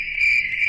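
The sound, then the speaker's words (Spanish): Crickets chirping in a brief, steady, high-pitched trill that pulses rapidly and holds an even loudness throughout. “Este es el sonido de los grillitos.”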